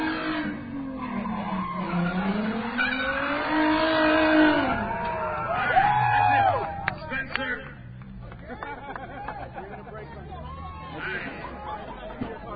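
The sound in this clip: Tires skid and an engine revs as a race car brakes and accelerates hard at a crowd-watched stunt event. A wavering, whining squeal rises and falls for several seconds over a steady bed of crowd chatter.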